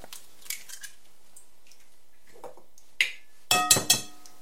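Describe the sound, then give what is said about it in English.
Eggs being cracked against a plastic cup: a few faint clicks, then several sharp knocking taps close together near the end, some ringing briefly. “So first, what we're going to do, going to crack the eggs.”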